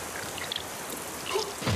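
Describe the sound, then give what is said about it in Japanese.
Steady rain makes a dense, even hiss throughout, with a few faint spatters and no voices. “この雨は！”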